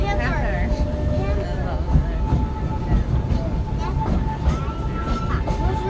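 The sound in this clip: A theme park train rolls along the rails through a jungle-themed area, making a steady, continuous rumble and clatter with light squeaks and rattles throughout.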